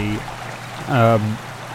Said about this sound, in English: ahead on the path you can hear the sound of rushing water